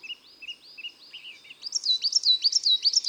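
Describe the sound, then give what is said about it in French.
Coal tit singing a simple song of high, thin two-note phrases repeated over and over, soft at first and then louder and brighter in the second half. “Là, c'est une mésange noire. Ce psititu, psititu,”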